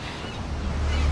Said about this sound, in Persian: های پسر، موج داره شدید میشه. دیگه بهت هشدار نمیدم.